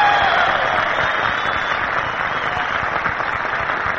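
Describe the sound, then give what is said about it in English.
An audience claps for 700 hostesses in the crowd, a dense, continuous wash of applause that holds a steady, loud level for the whole stretch. “You know, in our audience tonight, we have 700 hostesses. Let's give them a big hand. Yes, let's give them a”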